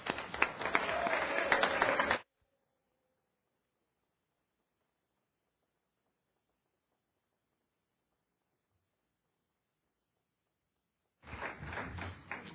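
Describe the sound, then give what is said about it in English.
Applause in a state House chamber for the visiting Arapaho Student Council of Fremont County School District 38, Wyoming: a burst of clapping at the start, then long silence, then clapping again at the end. “It's my honor to introduce the Arapaho Student Council, Arapaho Fremont County School District 38 from Arapaho, Wyoming. Would you all please give them a hand?”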